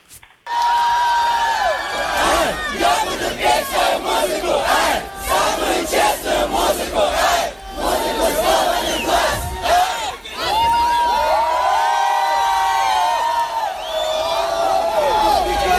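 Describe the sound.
Loud crowd shouting and chanting in unison at an illegal concert by a Russian rapper, a dense wall of many voices that stays strong and continuous throughout, with brief dips in between.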